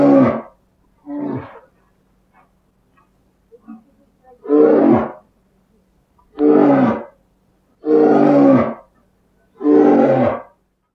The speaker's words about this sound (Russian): медведь.